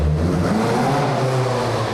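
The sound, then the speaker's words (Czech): Engine of a Škoda rally car, a legendary exhibit from a motorsport anniversary show, moving just a few metres along a shopping centre corridor. It gives a steady, loud, rough low rumble with a gritty mid-range growl throughout, and no voices. “Jeden z exponátů výstavy zaměřené na 125 let Škody Motorsport si přímo na chodbě obchodního centra vyzkoušel 11-násobný český mistr v rally Jan Kopecký.”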